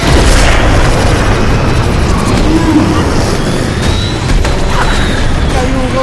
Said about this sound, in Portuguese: Acionei a bomba que eu colei no peito dele.